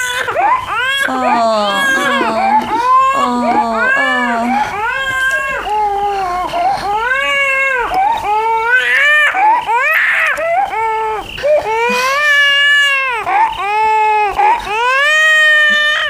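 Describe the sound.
An inconsolable baby cries loudly and without letup, wailing in long, rising and falling sobs that run back to back the whole time.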